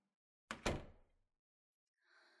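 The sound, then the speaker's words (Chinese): An office door is shut with two quick, solid thuds close together, the second slightly louder, then a brief fading rattle. After a short silence a faint, higher sound follows. “站在门口干嘛？把门关上。”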